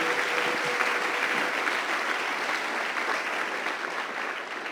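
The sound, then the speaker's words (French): A church audience applauds during a sermon, acclaiming at the preacher's call: continuous, even clapping from many hands that holds a steady level throughout and fades only slightly near the end. “J'aimerais qu'on l'acclame très fort avant de terminer.”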